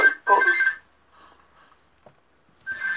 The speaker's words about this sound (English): Sorry about the phone.